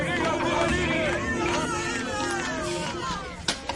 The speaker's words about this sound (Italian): Purtroppo non poteva soffocare le voci della strada.